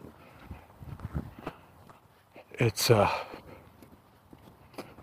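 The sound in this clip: Footsteps walking outdoors on a cold day: a series of soft, irregular steps, fairly faint, with a louder burst partway through.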